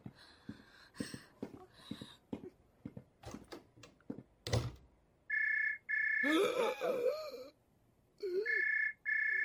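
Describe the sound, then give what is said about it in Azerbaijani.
A telephone rings electronically in two bursts of a steady high trill after a run of scattered clicks and taps. A voice briefly overlaps the gap between the rings. “Zeng açtılar. Alo.”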